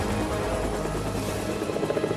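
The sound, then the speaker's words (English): Military helicopters in pursuit, a loud dense rotor and engine roar that stays steady throughout, with a faint rhythmic chop showing toward the end. “Air Force choppers are in pursuit.”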